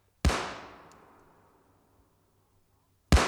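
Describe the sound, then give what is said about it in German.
Two gunshots, fired by a captain in a classic radio play of Schiller's Die Räuber. Each is a sharp, loud crack; the first rings out in a long fading tail, and the second comes about three seconds later. “Der Hauptmann! Er muss zum dritten Mal schießen!”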